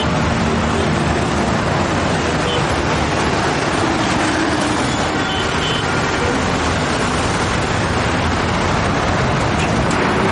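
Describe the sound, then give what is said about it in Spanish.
Heavy traffic on a busy, crowded street, a dense and loud continuous roar of vehicles that holds steady throughout with no distinct separate events. “En una calle abarrotada de tráfico y de gente, el camión se detiene.”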